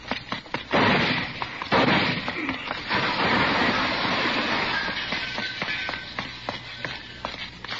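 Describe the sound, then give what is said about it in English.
Gunfire as police corner an armed man at a wall: a few sharp cracks stand out near the start inside a loud, dense roar of noise that runs through the whole clip. “You didn't have to shoot, did you?”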